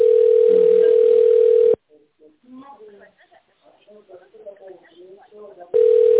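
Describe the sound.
Steady telephone tone during a call transfer: a single unbroken tone holds, cuts out while a voice talks, then returns unchanged.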